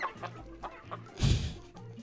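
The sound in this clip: Chicken clucking, faint: a few soft short clucks lead into one louder, rough burst near the end.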